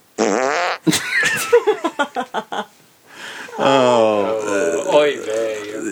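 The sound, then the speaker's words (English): A loud, sputtering fart made of a rapid run of about seven pulses that fades out, with people talking before and after it. “That wasn't a belch. I think I didn't get to tell them about a no farting rule.”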